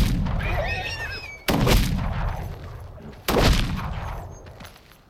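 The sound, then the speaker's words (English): Gunshots fired down from an opening at wounded horses near a mine shaft: two loud, sharp blasts, each trailing into a long rumbling decay. “I went to the opening and fired down at the injured creatures until they were still and at peace.”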